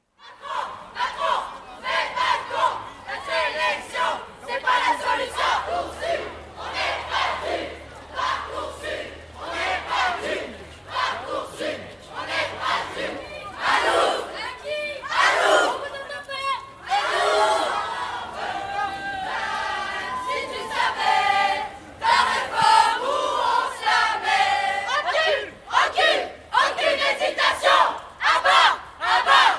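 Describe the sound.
High school students protest at a rally in Lyon. Many voices chant and shout in loud rhythmic bursts, with whistles and cries rising over the noisy, energetic crowd throughout.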